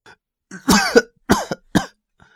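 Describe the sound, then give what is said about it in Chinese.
Short series of coughs from a weakened young man who has just woken in a hospital bed after a life-threatening ordeal. A longer, rough first cough is followed by two shorter, sharper ones. The coughs stand alone with no talk. “展燕朝咳嗽两声”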